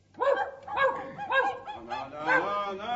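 Dogs bark and yelp in several tonal, honking calls that come in quick succession, fairly loud and with no talk over them.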